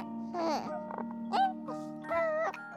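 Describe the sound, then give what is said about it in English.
A newborn baby coos and babbles in a few short, soft, voiced sounds that slide in pitch, fairly quiet over a steady low hum. “Think about the cooing of a newborn child”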